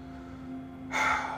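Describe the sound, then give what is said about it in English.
A woman takes a long, laboured breath, a sudden breathy rush that starts partway through and holds to the end over a faint, steady low hum. “She takes a long, labored breath.”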